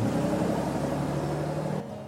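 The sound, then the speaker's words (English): Bus arriving: a steady, broad engine rumble with a low hum runs throughout, then eases off and quiets shortly before the end. “the bus finally arrives”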